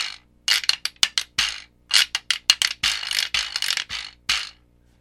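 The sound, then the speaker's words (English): A jawbone percussion instrument rattles its loose teeth in their sockets while a broken drumstick is scraped up and down the molars. Many sharp, dry clacks come in a loose rhythm, with some longer rasping runs. “So the kind of boingy rattle sound is the teeth rattling in their sockets. And then I have a drumstick, broken drumstick, that I scrape up and down the molars to give that other sound.”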